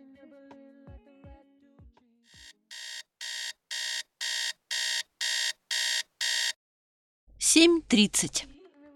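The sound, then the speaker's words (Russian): A beeping alarm clock goes off at waking: a steady run of many identical electronic beeps at an even rhythm, growing louder over the first few. Faint tones and clicks come before it, and a brief voice follows. “Он открыл глаза под пиликающий звук будильника”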